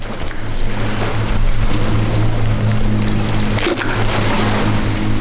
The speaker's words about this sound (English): Right now in North Georgia, at the Notley Dam, built and completed during World War II, and you're hearing the Notley River rushing up against the dam's rocky edge.